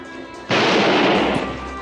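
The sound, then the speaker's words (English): A gunshot sound effect: one sudden, loud, noisy blast that holds as a rough, sustained roar for over a second before easing slightly, with no voices. “He shot him!”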